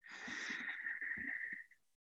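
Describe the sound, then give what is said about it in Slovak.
A deep inhale through the nose during a guided breathing exercise makes a soft, airy hiss. It lasts about a second and a half, faint and alone. “Takže hlboký nádych nosom”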